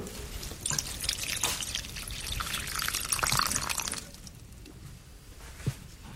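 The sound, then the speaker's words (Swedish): Water pours onto a banana plant in a greenhouse, a loud steady splashing for about four seconds, then eases to quieter trickling with a few soft drips. “Så jag gick ut i växthuset och vattnade bananen.”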